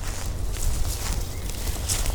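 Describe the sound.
Footsteps crunch through leaves as a woman steps over a log and stirs the leaf litter with a stick while hunting morel mushrooms near the Missouri River; a steady, dense rustling with no voices.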